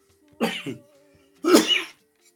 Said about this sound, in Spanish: tengo un poco de tos